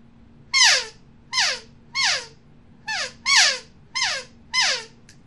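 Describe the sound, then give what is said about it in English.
Seven short, squealing elk calf calls blown on an open reed game call. Each is a bright, harmonic-rich mew that slides down in pitch, in an uneven rhythm with brief gaps between them. “And right now I have one in my hand that makes calf sounds. And I'm going to make a calf sound real quick with that open reed.”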